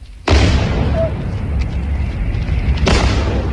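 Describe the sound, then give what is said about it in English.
Explosions during a Russian attack on Kyiv at night: a sudden heavy boom opens into a long, loud rumbling roar, and a second burst comes near the end. “This was Kyiv last night under another Russian attack.”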